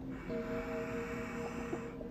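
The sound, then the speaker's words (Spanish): Deep inhalation through the nose, a steady airy rush lasting about two seconds over soft sustained background tones. “Inhalas profundamente.”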